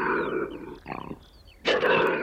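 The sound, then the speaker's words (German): A lynx in the Bavarian Forest calls with a low, harsh drawn-out growl, then a brief pulsed grunting stretch, and ends with a louder, rougher yowl. “Der Luchs.”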